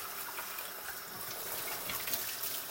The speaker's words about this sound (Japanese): 洗い物を今水水道の水冷たい水を使ってるんですけど